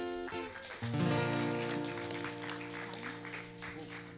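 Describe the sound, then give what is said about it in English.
An audience applauds in a church, a dense crackle of clapping beneath loud sustained keyboard or organ tones that carry through the whole stretch. “So let's put our hands together as we invite Pastor Nami.”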